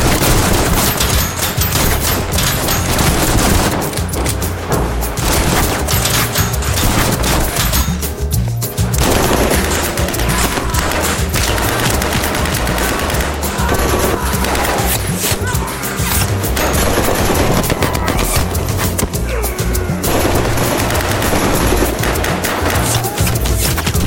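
Dense, continuous gunfire from a firing squad volley, loud and sustained throughout with overlapping cracks and no clear gaps between shots.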